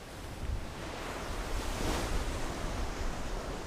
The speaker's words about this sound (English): The wind is starting to pick up.